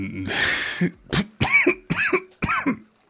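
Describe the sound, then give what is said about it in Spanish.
Coughing from a person with an irritated throat: a run of five harsh, loud bursts. The first is a long, rough rasp, and the later ones are shorter, voiced coughs separated by brief gaps. “Que cada vez que toso veo un poquito las estrellas.”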